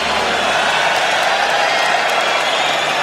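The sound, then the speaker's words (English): Audience applause for the clients at an event, a dense, even wash of clapping noise that stays loud and steady throughout. “Applause for all the clients.”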